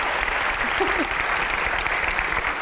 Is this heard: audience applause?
yes